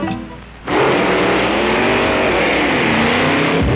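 A car accelerating out of a parking lot, its engine rising abruptly from a quieter idle into a loud, sustained roar that holds steady to the end.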